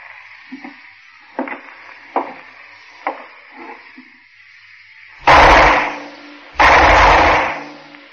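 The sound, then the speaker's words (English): Two loud gunshots from a gun in a radio drama, each a broad blast lasting about a second, coming after a few quieter, scattered short sounds. “And the end of the story must be acted out. Ironic twist, too. The same gun I used on White.”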